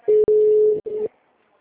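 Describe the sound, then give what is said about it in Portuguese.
Telephone line tone after a dropped call: a steady mid-pitched beep, split early by a sharp click, then a brief gap and a shorter final burst before it cuts off. “caiu a ligação”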